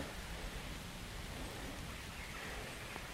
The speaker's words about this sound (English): These scattered rain showers are going over the country right now.